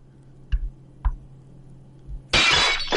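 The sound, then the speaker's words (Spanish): Window glass is smashed with the butt of a gun. A few sharp, hollow knocks come first, then a loud burst of shattering glass that crackles and sprays through the final second. “rompe el cristal de la ventana con la culata del arma”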